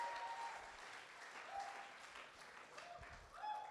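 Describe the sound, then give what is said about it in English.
A church audience claps during a sermon, a faint, steady rattle of many hands that keeps going without pause at an even, low level throughout. “Come on, give him a clap.”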